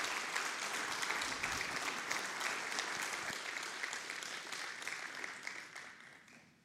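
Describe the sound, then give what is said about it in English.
An audience applauds to welcome a guest speaker, with dense, steady clapping that holds at an even level before easing off toward the end. “Well, let's give Josh a hand and welcome him up here today.”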